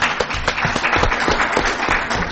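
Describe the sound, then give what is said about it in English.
Applause from an audience at an academic conference session after a paper presentation: a steady, dense patter of many hands clapping throughout, loud and even from start to finish. “I'd like to give one more round of applause to a very important paper.”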